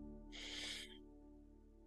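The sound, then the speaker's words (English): A single deep inhale during a guided breathing exercise: a soft, breathy rush lasting about half a second, faint and heard over a low steady hum. “Let's take a nice deep inhale all the way to the toes.”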